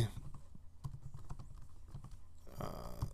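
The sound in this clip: Someone types a search query on a computer keyboard, producing soft, irregular key clicks, faint and sparse, with a burst of louder, broader noise near the end.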